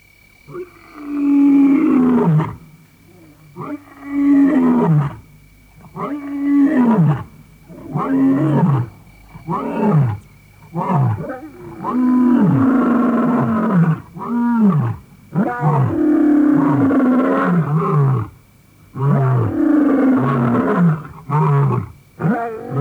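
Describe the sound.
A male lion roars to proclaim his presence in his territory: a long series of loud, deep, grunting roars, each a separate heavy burst with brief pauses between them, repeated many times.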